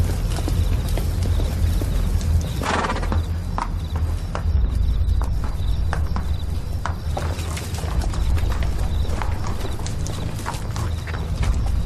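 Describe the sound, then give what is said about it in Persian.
Hooves of a walking horse clip-clopping in a steady, continuous rhythm of many sharp knocks over a constant background noise. “از اسبت پیاده شو”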